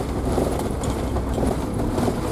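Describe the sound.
Steady rumbling road noise comes from a car driving on a bumpy, unpaved dirt road, a dense, constant roar with small jolts throughout and no voices.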